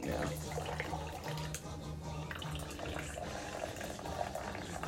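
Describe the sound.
Coconut LaCroix sparkling water being poured into a drink gives a steady, fizzy hiss of liquid and bubbles that runs without a break for the whole stretch.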